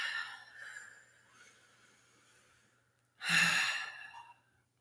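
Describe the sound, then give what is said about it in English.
Deep breathing during a grounding exercise: faint, quiet breaths give way to one long, loud, sighing exhale that fades out. “Take a couple great, deep, grounding breaths.”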